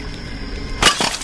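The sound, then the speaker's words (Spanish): A drinking glass breaks with a sharp, bright shattering crash, then a softer second burst of clinking fragments right after, set against a low, steady background hum. “El vaso se rompe.”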